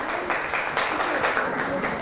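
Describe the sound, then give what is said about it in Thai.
Applause from students in a classroom, a continuous patter of many hands clapping at moderate level for about two seconds, with faint voices mixed in. “ปรบมือให้กลุ่ม6ค่ะ”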